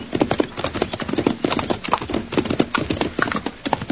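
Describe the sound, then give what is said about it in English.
Hooves of horses being ridden in through a narrow passage clip-clop in a rapid, steady stream of many loud hits, with no talk over them. “Let's ride in and see if Tommy's here. I'll go first. The passage is narrow.”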